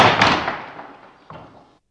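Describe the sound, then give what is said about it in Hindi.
A door being shut: a heavy slam with a broad, decaying rumble, followed about a second later by a softer knock as it settles. “जाते जाते दरवाजा बंद कर दीजिएगा।”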